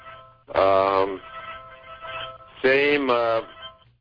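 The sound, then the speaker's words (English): A phone ringing in two loud, tonal bursts about two seconds apart, with quieter sound in between. “Is that your phone or mine, Ivan? That's my phone. That's okay. My son, I think, calling.”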